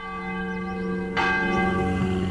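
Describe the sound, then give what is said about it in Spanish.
Church bells ring from a priest's parish church in Guanajuato, Mexico: a steady peal of sustained, overlapping tones, then a louder fresh strike about halfway through. No voices. “Imagínate escuchar las campanas de la iglesia del cura.”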